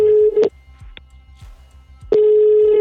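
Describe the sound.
A telephone ringing tone on an outgoing call: a loud, steady single-pitched tone sounds, cuts off, then resumes after a short gap of soft clicks and hiss.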